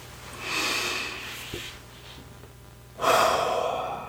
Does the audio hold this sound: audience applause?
no